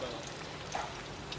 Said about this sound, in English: So what you're hearing right now are the sounds of cooking from a culinary high school in Taiwan.